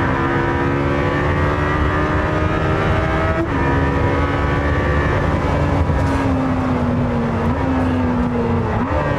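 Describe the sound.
Engine roar of a car with a 4-litre V8 driven at full throttle, a loud, continuous drone rich in harmonic tones that holds steady throughout, with a couple of brief breaks in its tone.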